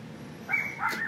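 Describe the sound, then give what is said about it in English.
A street dog barks faintly, giving two short, high yips a fraction of a second apart against a low steady background. “if you hear a dog barking here, that's not our dog, I can proudly say. Just another street dog.”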